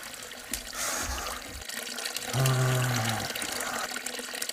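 Water runs steadily from a tap in a hotel room, a continuous hiss with a brief whining tone partway through, heard alone.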